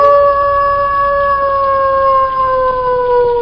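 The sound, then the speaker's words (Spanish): An eerie, drawn-out howl in a spooky scene near a gloomy mansion, a loud, steady wail whose pitch sinks slowly across its length, heard alone without voices. “Pues a mí ese aullido no me ha gustado nada.”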